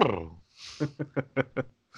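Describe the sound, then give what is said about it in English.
A voice imitates a cat-like roar: a wavering, falling cry, then a breathy hiss and five short, rapid yowling pulses in a quick, uneven rhythm, ending with the start of another. “I still can't do that fucking like sexual roar. That's all I can do. It's like a cat that gets its butt touched.”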